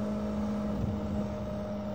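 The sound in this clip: Steady low engine drone of a car being driven, a constant even hum with a faint tonal whine and no clear change in speed.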